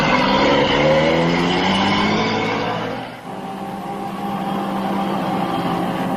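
A motor vehicle's engine drones steadily as it drives, a loud humming note that dips briefly midway and then holds at the same level, with no voices.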